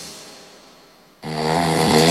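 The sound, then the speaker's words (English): Loud snoring from a man, a deep rasping snore with dense harmonic buzz that starts abruptly after a quiet moment and keeps building in strength, with no talk over it. “Oh, my husband snores like a warthog swallowed a generator.”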